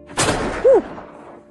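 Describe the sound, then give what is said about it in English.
A historic gun is touch-fired at Cardiff Castle, giving one sudden broad blast that rings on in a long, slowly fading tail. “Do you want to try touch firing it? If I hold the barrel for you. Yes. Give him fire.”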